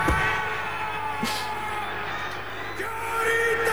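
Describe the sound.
A rugby team's haka war chant, performed by the All Blacks: loud, sustained, throaty group shouting and bellowing with crowd noise running underneath throughout.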